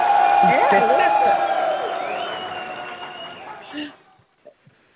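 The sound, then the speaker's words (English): Audience cheering and applause for a guest at a firearms-community talk, with whoops and voices over a crowd roar that gradually thins and dies away near the end, leaving a few faint sounds. “let's give her another round of applause.”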